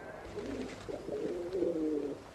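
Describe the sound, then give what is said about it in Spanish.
Cooing of blind decoy pigeons tied to the top of a holm oak: soft, low, wavering coos, fairly faint and with no talk. “no se trata ahora de la Milana, sino del cimbel, de los palomos ciegos. Hay que amarrarlos a la copa de la encina, moverles con el cordel.”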